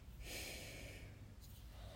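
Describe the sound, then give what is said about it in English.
A sharp exhale through the nose during a breathing exercise: one hissing, breathy burst lasting about a second, fairly faint, fading into quiet breath noise. “We inhale and now we exhale from our mouths. And now nose.”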